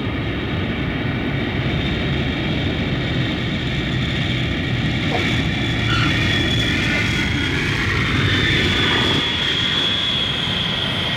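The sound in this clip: An airplane's engines roar as it comes in to land over the Arctic Ocean, a loud, continuous drone with a faint high whine held steadily throughout.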